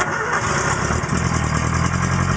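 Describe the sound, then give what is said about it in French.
A Ford car engine starts up and settles into a loud, steady low idle rumble that continues to the end. “Bon, il m'a dit de faire plusieurs fois le tour de la place avec la Ford. Vas-y, démarre.”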